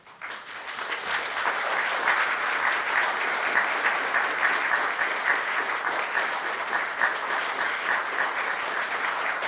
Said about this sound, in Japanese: 皆さんの拍手で、これは皆さんの意思として採択されたことを確認し、これを各方面に送りたいと思います。